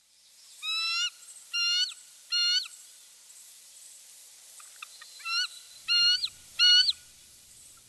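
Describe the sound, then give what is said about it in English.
Bald eagle peal call: high, thin, chattering whistled notes in a few rapid bursts, with three close together, a pause, then several more, sounding alone. “That is the sound of a peel call of a bald eagle.”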